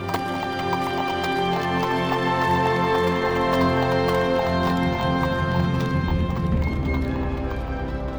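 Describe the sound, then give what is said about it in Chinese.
Hooves of a horse-drawn carriage clip-clop in a steady, continuous rhythm, loud and unbroken throughout. “看到空档时间如此的长，霍格就带着俄达和帕斯巴德搭着马车前往国际饭店稍作休息。”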